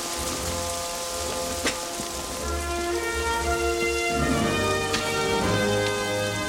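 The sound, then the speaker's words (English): Steady rain falls at night outside a military academy's ROTC building, a dense, even hiss of drops that continues at constant loudness throughout, with a couple of brief sharper drip ticks. “That night, the cadets wait in the rain, outside the ROTC building.”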